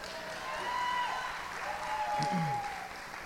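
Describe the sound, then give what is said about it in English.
Audience applause during a talk about a baptism: a steady, even wash of clapping that holds at a fairly constant level across the whole stretch. “So I got baptized on October 28th of 2018. You can clap if you want.”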